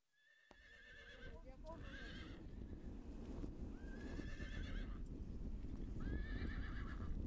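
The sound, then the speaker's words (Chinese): Hequ horses, a renowned sturdy breed, whinny several times in high, wavering calls over a continuous bed of galloping hoofbeats. The clatter of hooves grows steadily louder. “生长在此的马匹异常的威武健壮，奔跑如飞。这就是被誉为世界四大名马之一的唐克河曲马。”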